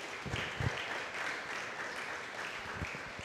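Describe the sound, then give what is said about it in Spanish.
Church audience applauding during a Spanish-language sermon: faint, steady clapping from many hands, with a few sharper claps near the start, continuing at an even level throughout. “Denle un fuerte aplauso a Cristo, aleluya.”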